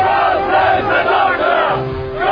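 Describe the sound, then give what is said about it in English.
A large crowd of Bulgarian extras cheers and roars in a film battle scene, a loud, dense mass of shouting voices that swells and dips repeatedly. “To get that many Bulgarians cheering, it's a feat.”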